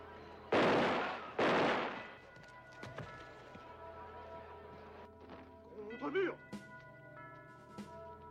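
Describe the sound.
Gunfire volleys from a firing squad ordered to fire during the French repression of the Madrid uprising: two loud, sharp blasts in quick succession, each with a decaying rumble, followed by quieter scattered sounds.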